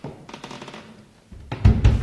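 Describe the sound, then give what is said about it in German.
Knocking on a cottage door on a rainy evening: a few soft taps, then two heavy, low thuds in quick succession, with no voices. “Wer klopft da an die Tür?”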